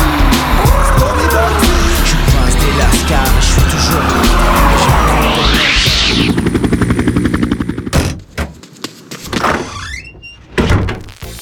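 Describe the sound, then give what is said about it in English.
A Mustang car accelerates with a loud engine roar and tire squeal, its harmonics climbing steadily. The sound breaks off abruptly near the end into scattered, choppier bursts. “Mustang, to the heliport. Processing. Accelerating.”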